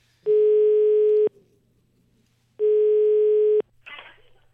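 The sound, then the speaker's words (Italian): Ringback tone of an outgoing telephone call: two steady, long beeps separated by a short pause, followed by a brief burst of noise. “Vogliamo provare a fare una telefonatina a Platì?”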